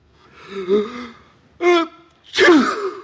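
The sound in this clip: A sneeze, built up through two drawn, voiced gasping breaths before a loud, sharp, breathy burst at the end.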